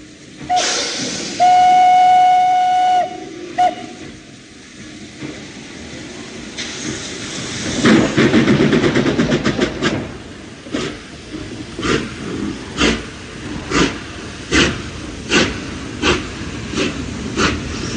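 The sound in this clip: A steam train blows its whistle in a sustained tone, then rumbles along the rails with a loud surge and settles into many regular, rhythmic wheel clacks.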